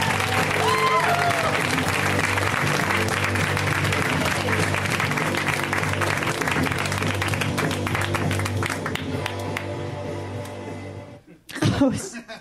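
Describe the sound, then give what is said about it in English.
Loud audience applause and cheering greet a comedian at a live stand-up comedy show. Dense clapping holds steady for about eleven seconds, then fades as a voice begins to speak. “Let's hear it right now for Erin Foley, you guys. Give it up for Erin.”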